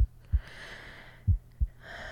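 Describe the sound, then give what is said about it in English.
A heartbeat used to pace slow breathing: deep, low thuds in lub-dub pairs, the second pair after a longer gap, with a faint airy breath hiss between the beats. “I want you to synchronize your breathing with my heartbeat, if you can. Think of the heartbeat almost like a metronome.”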